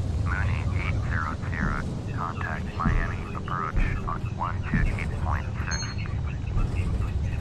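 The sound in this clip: Aircraft engines throttled up in a flight simulator video game: a steady, fairly loud droning hum runs through the whole clip while a voice talks over it.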